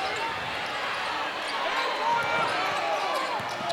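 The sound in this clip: A basketball being dribbled on a hardwood court during a game involving South Carolina, with repeated bounces set against a steady, loud arena din.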